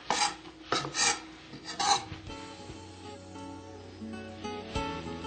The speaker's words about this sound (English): And then I usually just rough chop them for the salad. You don't have to mince them or anything like that. I usually use about a head of cilantro for this salad.